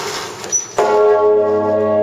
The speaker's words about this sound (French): Il y a un trésor situé dans le clocher qui est la plus grosse cloche de la cathédrale, fondue en 1427, pesant 9 tonnes, et elle est surnommée Totenglocke